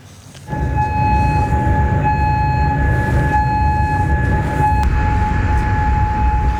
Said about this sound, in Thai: วันนี้เสียงเตือนภัยทางอากาศดังขึ้นในกรุงคูเวตซิตี้หลังอิหร่านเปิดฉากโจมตีใส่เป้าหมายทางทหารของสหรัฐ